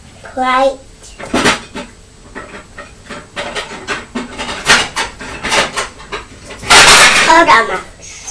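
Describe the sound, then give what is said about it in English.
A kitchen cupboard is opened to take out plates: a few brief wooden knocks and clatters, the loudest near the end, amid steady talking. “Plates from the cupboard.”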